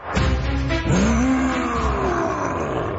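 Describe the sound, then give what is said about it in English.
A scary nightmare monster gives a loud, deep, growling roar that lasts about three seconds, its pitch jumping up sharply and then sliding slowly downward. “Ooh, hello, scary monster from my nightmares.”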